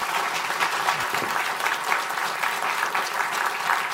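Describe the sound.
Audience applause after a guest is thanked at a live talk event: a dense, even patter of many hands clapping that holds steady for the whole four seconds.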